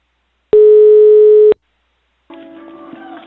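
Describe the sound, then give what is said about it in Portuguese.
Telephone line tone while placing a call: one loud, steady, one-second tone that stops abruptly, then after a pause a fainter, crackly, garbled line sound. “Eu vou ligar pra Consuelo.”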